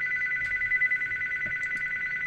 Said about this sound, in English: Shut up, phone.